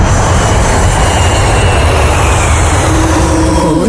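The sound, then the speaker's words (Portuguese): A loud airplane taking off, used as a radio show sound effect: a steady, dense roar of engine and rushing air that stays full and even for the whole stretch, with no voices over it. “Preparar para a decolagem rumo às grandes músicas. Aperte os cintos e boa viagem.”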